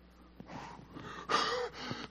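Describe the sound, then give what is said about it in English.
A person gasping for breath in a few airy, breathy intakes, the loudest near the middle, as if suddenly out of breath. No other sounds stand out. “It's like I ran out of breath.”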